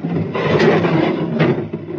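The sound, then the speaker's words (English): A door with a sonic lock opens with a muffled, steady grinding rush that lasts about two seconds and swells slightly in the middle. “The door has a sonic lock. I know the combination. Watch. 2023. Open sesame.”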